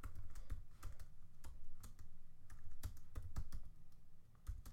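Keys clatter faintly as someone types a search on a computer keyboard, with many quick, irregular clicking keystrokes in uneven bursts and no talk.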